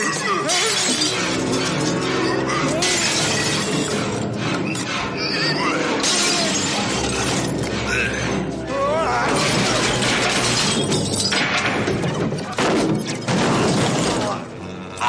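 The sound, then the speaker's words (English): Glass shatters again and again as a man's head is rammed through several glass shelves. Loud crashes and sharp tinkling follow one another over many seconds, in a dense, chaotic wash of sound. “Peyton Westlake gets his head rammed through many glass shelves.”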